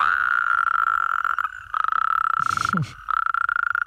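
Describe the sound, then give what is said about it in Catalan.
Toads and frogs croaking at night, forming a steady high-pitched trill that drops out briefly twice, with a burst of rougher croaking calls mixed in near the end. “Pensa que aquests, els gripaus, granotes, molts amfibis, canten a les últimes hores del dia i ja entrada la nit.”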